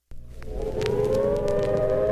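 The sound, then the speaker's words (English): A civil defense warning siren for an imminent nuclear attack wails loud and steady, its tone climbing gradually in pitch as it sustains through the whole clip. “The sound you hear is a recording of the warning siren in case of an imminent nuclear attack.”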